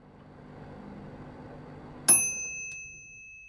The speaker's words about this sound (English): 你微波炉热的饭好了吗? Yes, actually, but I wanted you to name that sound. 让我用英语描述这个声音。 这是乒乓作响 ping 的声音。